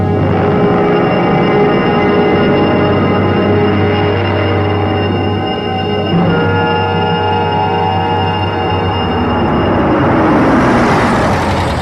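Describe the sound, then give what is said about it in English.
A black limousine moves slowly up a long, tree-covered drive toward a hilltop mansion: a steady, loud, low engine drone with a whirring hum continues throughout and swells slightly with a brighter rushing noise near the end. “A black limousine slowly pulls up the long, tree-covered drive to the Gothic mansion on a hill”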